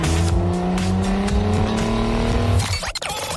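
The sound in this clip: A car engine, the rideshare car a driver invites someone into, runs with a steady, loud, low drone. Near the end its sound changes abruptly and breaks up as the car pulls away.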